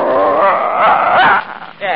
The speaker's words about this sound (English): I can't take no dog on board with me. Now, you Marine guys... Ah, yeah, no... sure you can. It's just a little dog.